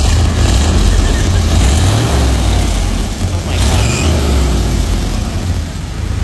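Old car's engine running, a loud continuous rumble with a rough, throbbing low end under broad noise.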